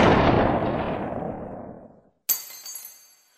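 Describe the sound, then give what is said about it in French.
A gunshot as a man shoots himself: a loud blast trails off in a long fading rumble, then after a brief gap a sharp bright clink rings out and decays. “Merde, il s'est tiré une balle.”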